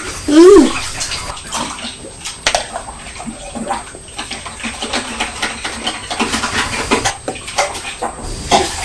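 Water runs and splashes while a bottle is rinsed out during washing up, a loud, steady rush broken by irregular sloshes and small clatters throughout.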